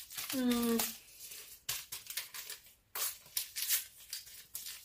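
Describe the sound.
Paper packets of vanilla sugar are torn open and emptied into a mixture while cooking, giving a few sharp crinkling and tearing bursts separated by short pauses, fairly faint overall.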